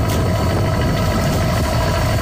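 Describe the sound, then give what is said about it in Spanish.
A boat engine runs as the boat leaves the port of Fisterra at night, a continuous low, throbbing rumble at steady loudness. “Noite pechada, así soa o motor dun barco sair do porto de Fisterra.”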